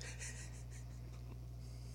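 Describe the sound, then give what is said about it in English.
Pen or pencil scratching across paper while something is written down, a few quick, faint strokes in the first second or so, over a steady low hum. “All right. I'm going to write that down. It's now on record.”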